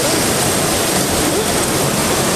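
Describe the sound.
Flood water rushing through Tocopilla in northern Chile after exceptional heavy rain in a desert region, a loud, dense and unbroken roar throughout.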